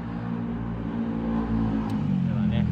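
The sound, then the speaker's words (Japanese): Motorcycle passing by on a street, its engine making a steady, buzzing drone that swells slightly in loudness toward the end. “バイク通るからね、 バイク通るからね、 バイクはもうひっきりなしですね。”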